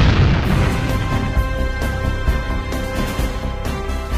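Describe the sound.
A science-fiction rocket-firing effect as retro rockets fire, a loud, dense roar that holds steady for about four seconds with sustained tones running through it and a few slightly stronger surges.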